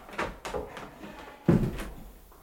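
A small door is opened in a radio drama, leading into a cramped pantry. Soft clunks and rattles are followed by a firmer thud partway through, all fairly faint.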